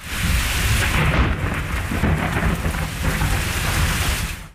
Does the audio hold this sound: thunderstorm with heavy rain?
yes